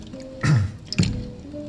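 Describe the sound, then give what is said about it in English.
A dish being lowered into soapy water gives two short, wet sloshing splashes about half a second apart. The first is the fuller one, and both are set against a quiet background. “This dish is going to be dedicated to humanity. And as I put it in the soapy water”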